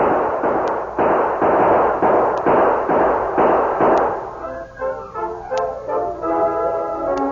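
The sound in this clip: Gunfire in a radio western drama, a rapid volley of many loud, evenly spaced shots that then give way to quieter, ringing tonal sounds.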